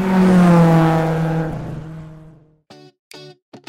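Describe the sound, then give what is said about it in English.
A Ferrari engine revs in a sound effect: a loud, harmonic roar whose pitch slowly drops as it fades out, followed by three short, sharp revving bursts. “Yeah, you bet it's going to move fast thanks to you-know-who. Who's that? Oh, the Ferrari. That's right.”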